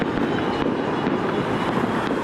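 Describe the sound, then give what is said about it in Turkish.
Fireworks crackle and pop throughout a street celebration by football fans in the town centre of Cizre, Şırnak, forming a dense, steady wash of noise with sharper bangs cutting through every half second or so. “taraftarlar Şırnak'ın Cizre ilçe merkezinde havai fişekli kutlama yaptı”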